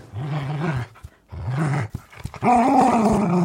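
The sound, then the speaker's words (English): A dog growls playfully while tugging a worn toy squirrel held at one end. Three rumbling growls come in bursts with short pauses between them, and the last is the longest and loudest. “And I think that is the sound of dog joy.”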